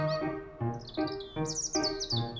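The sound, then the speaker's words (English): Birds singing in a tree, with rapid high chirps and twitters that repeat in short bursts throughout, fairly loud over a steady lower tonal backdrop. “It's birds singing in the tree.”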